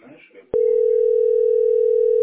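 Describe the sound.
Telephone dial tone after a call drops: a steady, unbroken mid-pitched tone sounds loud and continuous, following a brief moment of speech at the start.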